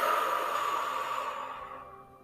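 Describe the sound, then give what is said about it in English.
A slow breath out through the mouth during a deep-breathing exercise: one long, soft, airy exhale that tapers off into quiet, heard alone. “Inhale in through your nose. Exhale through your mouth.”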